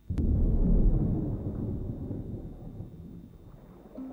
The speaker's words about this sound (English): Lightning flashes above.